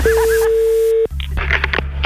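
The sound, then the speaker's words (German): Telephone tone: a steady, single-pitched tone holds for about a second, then gives way to a few short clicks and bursts of noise. “Das Telefon.”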